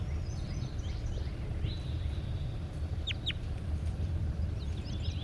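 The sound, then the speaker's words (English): A large bird gives a few short, high calls. They are faint against steady, loud low rumbling noise that runs throughout. “Definitely a large bird.”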